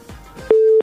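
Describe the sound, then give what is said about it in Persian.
Busy tone after a phone call is cut off: faint soft clicks give way to a single steady, mid-pitched beep lasting about a third of a second, loud and clean. “متاسفانه که تماس وحید جان از خوست قطع شد”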